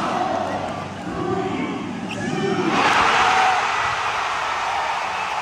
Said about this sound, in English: This guy, a fan in the crowd, got the ball on halfway, throws it, makes the basket. Wins? A car. A car! What? As you can hear the crowd going off.